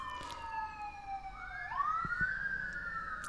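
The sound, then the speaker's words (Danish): Fire engine sirens passing by, a wailing tone that sags slightly, then sweeps sharply upward and holds high, moderately loud over a low street rumble. “Så kommer der en ambulance. Jeg ved ikke, om det er et tegn. Nej. Ej, det er brandbiler faktisk. Jeg så dem køre nedad.”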